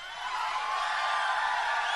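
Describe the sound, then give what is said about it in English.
An audience yells as loudly as it can, a continuous roar of many voices that swells at the start and then holds steady and loud to the end. “how loud can you yell?”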